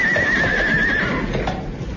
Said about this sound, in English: I think the horse must be tired, sir.